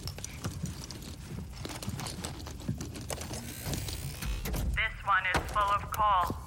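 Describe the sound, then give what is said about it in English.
Lumps of coal are thrown and strike a person in a rapid, uneven scatter of small knocks and clatters. Toward the end a voice cries out in pain. “Ow! Ouch! Stop throwing... Ow! Stop throwing coal at me!”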